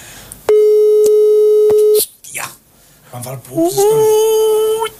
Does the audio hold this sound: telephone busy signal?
yes